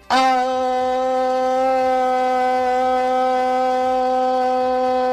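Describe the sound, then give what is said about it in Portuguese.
A police car siren sounds as a loud, steady held tone that starts abruptly and stays level for about five seconds, without an obvious rising and falling wail. “Sua viatura virtual da Gabi vem chegando.”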